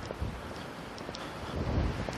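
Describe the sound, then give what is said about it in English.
Wind blowing outdoors on a cold, gusty day: a steady low rumble and buffeting roar of wind noise that swells slightly in a few gusts, with no voices. “I got down sheltered from the wind a little bit, so it's a little bit better.”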